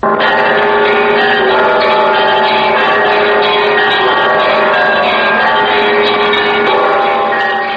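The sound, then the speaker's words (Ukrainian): Church bell ringing for the people of Ukraine, its loud overlapping tones sustained and continuous throughout, with no pauses between strokes. “А ось дзвін усі дзвони називають найвеличнішим красним, як ось цей – за народ України.”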